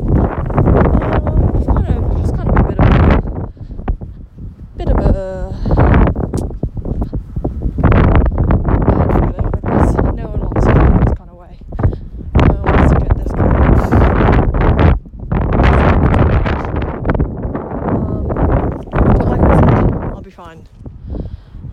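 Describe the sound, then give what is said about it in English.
Strong wind blowing across the microphone in heavy, loud gusts of rumbling noise that continue almost without pause, with a person talking underneath. “I'm really aware that there's a horrible wind today.”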